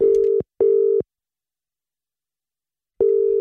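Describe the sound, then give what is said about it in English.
Telephone line tones sound as a call is placed: three loud, steady bursts at one fixed pitch. Two come close together, then a long silence comes before the third. “So we're going to give him a call, find out exactly what is going on.”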